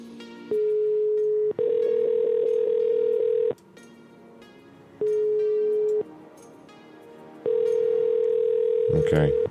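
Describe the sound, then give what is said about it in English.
A telephone ringing tone comes through the line as a few long, steady electronic tones separated by short pauses, with a brief burst of noise at the very end. “I think we have it ringing.”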